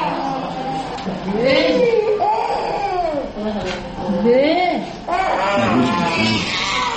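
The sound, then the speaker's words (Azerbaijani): Babies crying at a thalassemia treatment center: repeated wailing cries that arch up and down in pitch, coming in loud bursts with short gaps between them. “Talasemiya mərkəzində ancaq körpələr belə yanğılı ağlayırlar. Biraz böyüklər artıq öyrəşiblər.”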